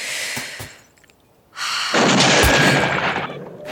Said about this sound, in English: Lean in, breathe out slowly, and squeeze the trigger.